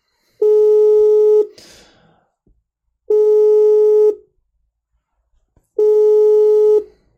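Three long, steady telephone tones, each about a second, separated by short silences while a phone call is redialed and meets a busy line; a brief burst of noise follows the first tone.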